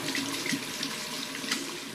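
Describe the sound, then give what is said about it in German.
Water running steadily from a bathroom tap while hands are washed with soap, a constant even rush with no talking. “So, jetzt also Ärmel hochkrempeln, Hände waschen und Haare einseifen.”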